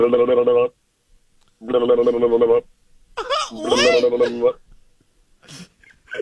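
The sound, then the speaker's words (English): A phone ringtone themed on the anime One Piece plays a bright melodic tune in two short bursts separated by silence, followed by a voice talking. “That's the One Piece. That's a phone call for One Piece. If anybody knows anime.”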